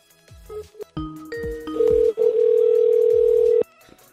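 A telephone line gives tones for a number that cannot be reached. A few clicks and short beeps lead into a loud, steady tone that breaks off briefly, resumes, and then stops abruptly.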